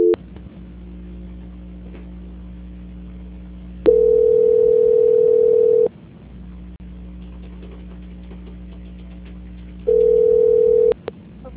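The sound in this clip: Telephone line tones during a call transfer: a steady low hum runs throughout, broken by two long, loud, steady beeping tones.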